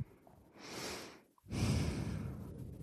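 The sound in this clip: Heavy breathing: two long, noisy breaths separated by a brief pause, the second louder and more drawn out, quiet overall and without words.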